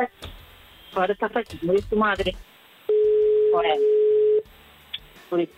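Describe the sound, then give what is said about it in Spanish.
A telephone ringback tone while a call is placed, heard as one long, steady, even electronic tone that sits between stretches of people talking. “estamos llamando. A ver si nos coge el teléfono”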